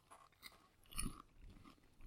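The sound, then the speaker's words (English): Faint chewing of strawberries, with several stuffed into the mouth at once, heard as soft, wet crunches and bites at irregular intervals, quiet and alone. “Strawberry. Okay. And I've been eating them individually so far. I haven't. I've been shoving them in my mouth.”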